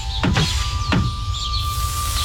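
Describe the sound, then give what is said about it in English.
Windows being opened to let in spring air: two quick sliding whooshes, the second a little shorter, over a steady background hum, with faint bird chirps afterward. “Let's open the windows and let in the fresh air.”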